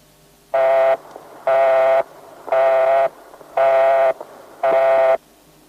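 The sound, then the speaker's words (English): An American telephone busy tone sounds for an engaged line: five evenly spaced, buzzy mid-pitched beeps of equal length and loudness, separated by short gaps of quiet line hiss. “If the number you have dialed is engaged, the American tone will sound like this.”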